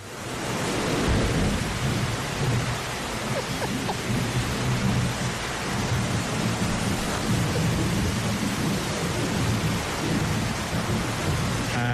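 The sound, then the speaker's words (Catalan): Heavy rain pours down in a steady, dense hiss during a downpour in Tarragona, with low rumbles of thunder rolling beneath it throughout. “Pot ser que no se senti del tot, perquè va caure un xàfec, nano. Sí. 13 anys que no plovia tant.”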